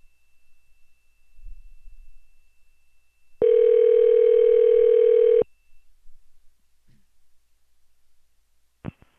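Telephone dial tone from a hotel room phone while calling the front desk: one steady, unbroken tone lasting about two seconds. Faint low thumps come before it, and a brief sharp click follows near the end.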